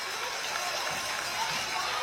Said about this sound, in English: There we go. And there we go. Crowd reacts as well.